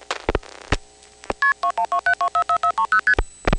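Multi-frequency telephone signalling tones from a 1977 call recording, sending the dialled number: a few clicks, then a rapid, evenly spaced string of about a dozen short, loud two-tone beeps at shifting pitches.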